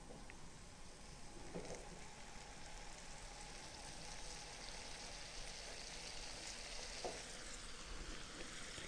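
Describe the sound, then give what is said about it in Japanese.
Steady sizzling from a hot frying pan as a sauce with frozen mixed vegetables is stirred and simmered down over medium heat; a continuous, even crackle with a few faint clicks and no talking. “フライパンが熱くなってくるとまたじりじりと音がしてきますので、そうしたら火を弱めて中火ぐらいで混ぜながら煮詰めていきます。”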